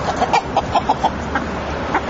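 Chickens clucking as poultry struts about a farm estate: several short, mid-pitched clucks in a loose, irregular series over a steady background hiss.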